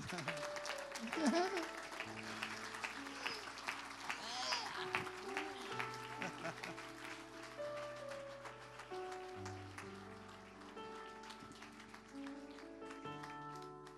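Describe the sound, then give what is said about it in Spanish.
Applause from a church audience at a celebration service, a continuous patter of clapping for the whole clip, mixed with sustained musical tones. “Fuerte ese aplauso.”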